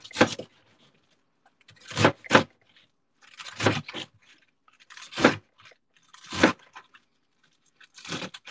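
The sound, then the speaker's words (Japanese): Knife chopping napa cabbage into bite-size pieces, cutting through stacked leaves with crisp, crunchy strokes. Several sharp cuts come in loose bursts, some in quick pairs, separated by short pauses, with no talk. “あとは、まあ、食べやすいサイズ感にね、ザクザクと切っていくんですが。”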